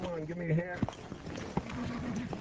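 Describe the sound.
A few dull hoof clops sound as a rider nudges his horse forward on a rough mountain ridge trail. The sparse, irregular steps are faint and partly under a man's voice.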